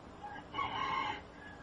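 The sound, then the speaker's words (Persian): A rooster crows once, a brief, fairly loud call standing alone with no voices. “صدای خروس هم میاد”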